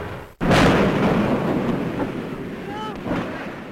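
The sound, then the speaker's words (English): An archival recording of the hydrogen airship Hindenburg crashing and burning: after a brief dropout, a loud, dense roar of rushing noise starts suddenly and holds steady, with slight swells and a faint whistling tone near the end. “The actual crash of the Hindenburg, an airship destroyed in less than half a minute.”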